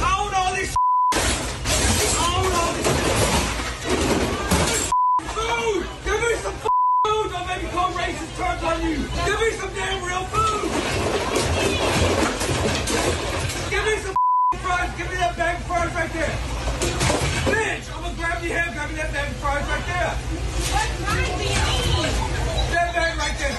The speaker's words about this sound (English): a crazy angry man approaching the drive-thru window and starts reaching in and just destroying everything that he can get his hands on while demanding that they give him some, quote, real food.